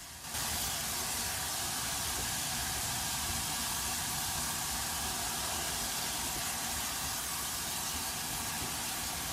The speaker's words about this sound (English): The Flying Scotsman slows to a crawl as it passes another steam locomotive at a standstill.